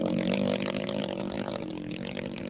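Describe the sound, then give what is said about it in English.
A pit bike engine runs with a steady, buzzing drone. Its tone is even and sustained, fairly faint and unchanging throughout. “Still hear the other bike going. Yeah. Well, there's nothing wrong with hearing a pit bike.”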